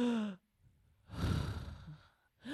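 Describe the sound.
A voice imitates the strained, gasping breath of someone pushing themselves up to breathe: one long, rough, airy inhalation that swells and fades. Brief voiced sounds frame it at the start and end.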